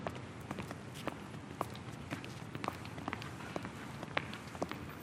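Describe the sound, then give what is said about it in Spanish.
Hurried footsteps walk toward a desk: quick, light, irregular steps tap faintly over a soft background hiss. “El señor Lino camina con prisa hacia su escritorio y se sienta en la silla con la espalda rígida”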